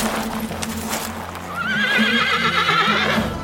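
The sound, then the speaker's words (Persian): A war horse neighs in the desert before an enemy army, a loud, long, quivering whinny that rises out of rough noise, with a steady low drone underneath. “شیه اسبش لرزه بر تن پسر سعد انداخت.”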